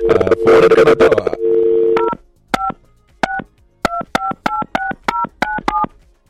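Telephone keypad tones place a call: many short, crisp dialing beeps in a quick, uneven run follow a loud opening burst and a steady tone.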